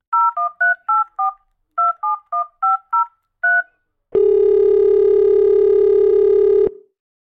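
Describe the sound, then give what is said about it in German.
A telephone being dialled to place a call: a quick series of touch-tone beeps in two bursts separated by a short pause, followed by a loud, steady tone lasting a couple of seconds before it cuts off. “ich würde jetzt einfach mal den aller, allerersten Anruf tätigen, um zu sehen, wen wir denn so am anderen Ende der Leitung erreichen werden.”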